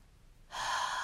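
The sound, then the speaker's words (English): A deep breath drawn in during a slow, calm breathing exercise: half a second of near silence, then a sudden airy inhalation that holds loud and steady to the end. “Take a deep breath in,”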